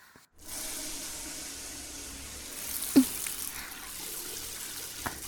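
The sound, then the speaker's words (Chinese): Water rinses soap foam off a person, making a soft, steady hiss of running water with a couple of small knocks partway through, all at a low level. “好了，给主人冲洗掉泡沫吧。”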